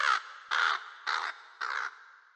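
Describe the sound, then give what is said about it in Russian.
A crow cawing: four harsh, raspy caws, evenly spaced and alone, each fairly short. “Голос эхом пронесся по комнате и выпорхнул через дыру в потолке. Оттуда каркнула ворона.”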